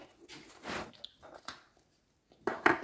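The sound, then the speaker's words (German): Crunchy bites and chewing of a chocolate cookie. A few short crisp bursts come in uneven clusters, with brief quiet gaps between them and a louder, denser crunch near the end. “Und esse einen Keks.”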